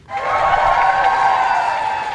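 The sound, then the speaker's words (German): Applause breaks out as Ukraine's President Zelensky steps out of 10 Downing Street in London, a dense, even clatter of many hands that rises fast and then holds steady and loud for about two seconds. “Als Volodymyr Zelensky vor die Downing Street Nummer 10 tritt, brandet Applaus auf.”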